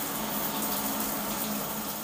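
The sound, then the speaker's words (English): A shower runs at home, its water spray making a steady, even hiss that holds at a constant level throughout, with no voices. “Into the shower I go.”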